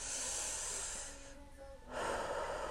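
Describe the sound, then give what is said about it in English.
A person breathing deeply: two long, airy breaths separated by a short quiet pause, soft and hissing, with no talk. “So I'm finna kick back and relax. Breathe. Inhale.”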